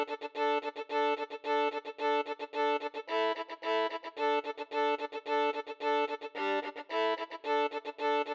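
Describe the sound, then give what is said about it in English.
A solo fiddle plays a repeated accompaniment pattern that lays down a song's harmonic structure. Rhythmic bowed notes pulse steadily, and the same short figure cycles throughout at moderate volume. “One is playing a repeated pattern, laying down the harmonic structure of the song, which sounds like this.”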